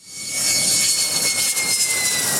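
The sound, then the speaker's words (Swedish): Two F-16V fighter jets land at the Taitung military base in Taiwan, producing a loud, steady jet roar with a thin high whine running through it, unbroken and without voices. “De två nya stridsflygplanen landade idag på militärbasen i Taitung på Taiwan.”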